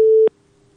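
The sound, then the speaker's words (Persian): Busy signal after a caller's phone line dropped: a single steady mid-pitched beep lasting about a quarter second cuts off sharply into near silence. “بله فکر کنم تماسشان قطع شده.”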